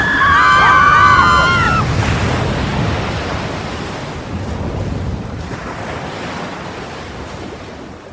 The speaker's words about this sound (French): Le bateau coule, c'est une catastrophe. Calmez-vous, ce n'est qu'une petite vague.